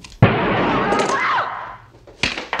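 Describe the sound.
A gunshot rings out in a tense drama scene: one sharp, loud crack at the start with a long, noisy decaying tail, then another short burst near the end.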